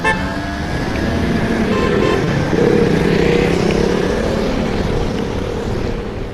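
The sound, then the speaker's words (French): Traffic in a Paris jam near the Seine riverside roads: a steady, dense rumble of engines with a horn sounding over it, continuous and fairly loud throughout. “Ben là, on est en plein dans les bouchons parisiens. On n'est pas loin des quais de Seine.”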